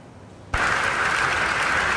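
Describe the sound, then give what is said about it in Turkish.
Applause from scientists at a medical meeting in Istanbul, cheering pancreatic cancer drug results. After half a second of near quiet, the applause bursts in at once and holds as a dense, even wash of clapping. “Bu ay tıp dünyasında çığır açacak pankreas kanseri ilacının sonuçlarını bilim insanlarının dakikalarca alkışladığı bu görüntülerle öğrendik.”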